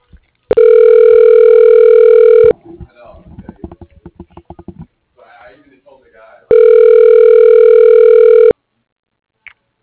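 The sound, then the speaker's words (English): A telephone rings twice as a call is transferred, each steady electronic ring lasting about two seconds, separated by a stretch of faint, scattered noise. “Transferring your call.”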